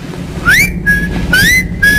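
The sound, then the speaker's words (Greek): A person whistling into a telephone, a loud clear two-part pattern heard twice: a quick upward slide followed by a steady held note. “Σφύρα κι εσύ.”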